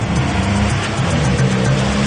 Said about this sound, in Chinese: 突然，在烟馆门外开来了几辆日本摩托车